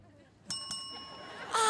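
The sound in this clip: A quiz contestant rings in with a bell: two quick, bright dings in rapid succession leave a sustained ringing tone, and then a voice starts talking over it at the end.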